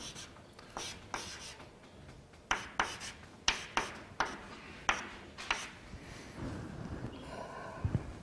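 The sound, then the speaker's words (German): Writing on a board during a lecture: many sharp, scratchy strokes and taps in an uneven rhythm, heard alone without talk. “Na, ich schreibe es nochmal hin.”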